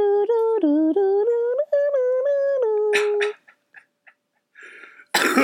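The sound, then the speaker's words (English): A person's cough bursts out loudly near the end, after a stretch of sustained, tonal, sung-sounding voice and a few faint breathy noises. “I just have been coughing.”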